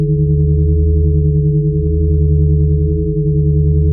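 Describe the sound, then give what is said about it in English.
Steady, loud, low electronic hum presented as the amplified frequency of antacid made of magnesium, oxygen and hydrogen. The droning tone holds unbroken for four seconds, alone with no voices. “What you're hearing is an amplification of the unique frequency emitted by antacid, a combination of magnesium, oxygen, and hydrogen.”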